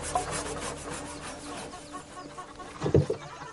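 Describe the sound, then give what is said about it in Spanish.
Hand saw cutting through wooden logs in a house courtyard by day: a steady run of raspy back-and-forth strokes, with a louder knock near the end. “George, junto a varios troncos, prepara una sierra.”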